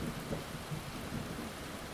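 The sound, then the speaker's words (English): Deep rumble of thunder blends into a dense, steady wash of rainy-season storm noise in Southeast Asia, holding constant and loud for the full two seconds without clear separate cracks. “Southeast Asia, and when you hear that rumble of thunder, you know that you're in for some apocalyptic”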